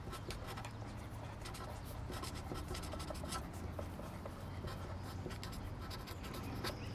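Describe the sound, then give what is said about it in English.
A pen writes a sentence on paper during a fold-over writing game, making many quick, light scratching strokes in a steady, faint patter that continues throughout. “Because I'll try to write hello, and it'll be, like, H-L-L-E-O.”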